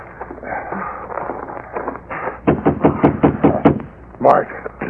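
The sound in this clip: Someone knocks on the door of a cabin hidden back among trees. Talk gives way to a rapid run of firm, evenly spaced knocks, followed by one more heavy thump.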